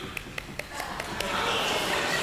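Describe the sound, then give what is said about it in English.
Knuckles knock on the top of a head in a quick, even run of six soft, hollow taps, then a steady noisy wash follows. “you can use the flat of your knuckles, hit yourself on top of the head, and get the same sound.”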